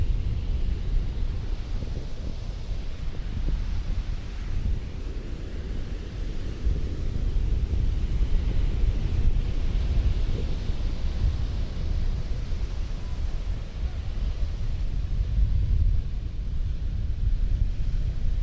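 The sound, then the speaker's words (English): Wind buffets the microphone at Seal Beach, a continuous loud low rumble with gusty swells and dips throughout, no voices. “Hopefully we can get like the wind to get more isolated so that your audio experience is not trash”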